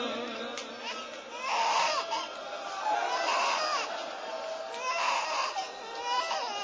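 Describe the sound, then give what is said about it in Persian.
A baby cries in a series of wavering, high-pitched wails at a steady, moderate loudness, one sob after another with barely a pause. “بچه وقتی گریه کنه سخت ساکتش کنه.”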